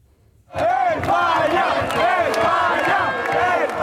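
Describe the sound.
A large crowd of Spanish football fans roars and chants in Madrid after a World Cup victory over Belgium, a dense wall of many shouting voices with wavering, rising-and-falling yells that bursts in abruptly after a brief quiet start and stays loud throughout.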